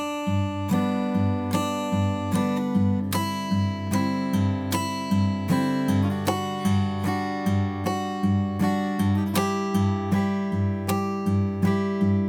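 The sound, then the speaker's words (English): Acoustic guitar played in clawhammer banjo style, starting open on the same chords with a single note, thumb, brush, thumb pattern. The plucked notes and brushed strums repeat in a steady rhythm throughout, with no voices. “Start to hear that clawhammer banjo take shape.”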